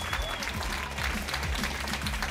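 Audience applause from an unplugged live concert recording, with clapping washing over low, rhythmic instrumental tones. The noise stays fairly even throughout.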